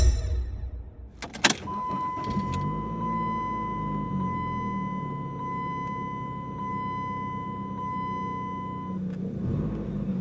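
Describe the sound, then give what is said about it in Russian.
A car speeds along a highway, its steady engine drone and low road rumble carrying a sustained high whine, with a brief sharp burst near the start. “Машина мчалась по автостраде, обгоняя все остальные, словно они решили установить новый рекорд скорости.”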